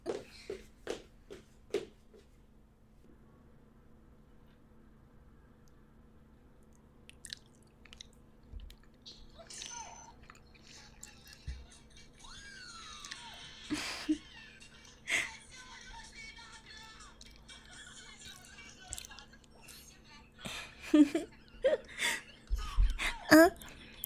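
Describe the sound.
A person chewing while eating: soft, moist smacks and squishy bites, sparse and faint at first, then growing denser and louder into a quick irregular run toward the end.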